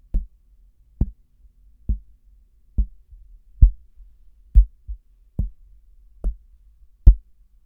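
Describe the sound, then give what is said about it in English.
Fingers tap on the body of an sE Electronics Dynacaster dynamic microphone, giving a steady series of dull, low, thumping knocks, roughly one per second, each short and isolated against near silence. “to be thorough and a bit annoying, I'm going to tap on the body of the microphone to see if there are any kind of resonant frequencies.”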